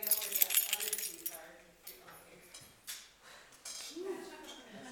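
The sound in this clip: Bright metallic jangling of a set of library keys rattles loudly at the start, then gives way to people talking, with faint clinks in between.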